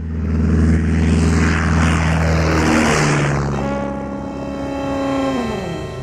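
A propeller airplane takes off from a bumpy airstrip at Grytviken, above a glacier-edged sound. Its engine gives a loud, steady, buzzing drone, and the humming tone shifts partway through.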